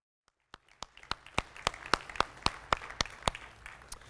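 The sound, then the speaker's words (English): Applause from a church gathering welcoming two speakers forward, heard as a run of crisp, separate claps at an even, regular beat, growing slightly firmer after the first few. “If you guys would come over here, give them a hand.”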